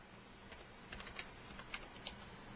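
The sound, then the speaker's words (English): Faint computer keyboard typing as a search is entered, a few light, irregular keystroke clicks over a low steady hiss. “Maybe I'll ask Wikipedia for help on this, too. Let's see. I'll type in the word that I do know how to pronounce.”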